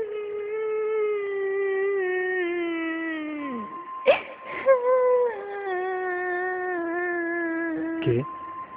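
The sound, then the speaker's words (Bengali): An eerie wailing cry around three in the night: a long, sustained moaning tone that wavers, then dips in pitch, broken by a few short gasping catches before it resumes. “কে কাঁদছে?”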